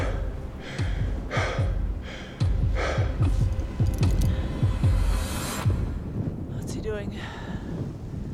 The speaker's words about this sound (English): I'm out of breath just standing up, so it's pretty serious.